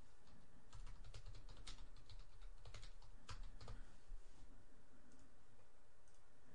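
Typing on a computer keyboard, a faint flurry of rapid, irregular key clicks that bunch into quick bursts and then trail off into quiet near the end, with no talking.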